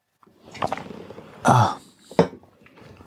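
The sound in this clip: Coughing and throat clearing from a man with something caught in his throat: a few harsh, rough bursts, the loudest and longest in the middle, with quieter rasping between them.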